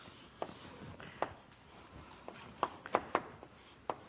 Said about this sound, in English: I guess I could draw a little hamster here.